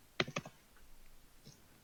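A few short, sharp clicks from typing on a computer keyboard, two strong keystrokes close together followed by a lighter one, then only faint scattered taps over quiet background noise.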